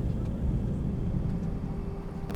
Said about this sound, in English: And after that nice landing, welcome to Boston Logan International Airport.